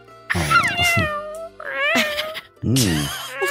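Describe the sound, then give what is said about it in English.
A voice imitates a cat's meow, voicing a baby slug creature, with three drawn-out meows that rise and fall in pitch and are separated by short gaps. “He meowed like a cat, but he was a slug.”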